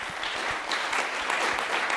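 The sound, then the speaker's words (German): Applause from a group of choir boys at the end of an hour-long question session with a state premier: dense, steady clapping that continues evenly throughout without pause. “Am Schluss gibt es Applaus für Stanislaw Tillich.”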